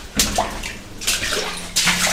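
Water sloshing as someone wades in rubber boots through a narrow old mine passage, with three splashy surges of swirling water at a steady walking pace.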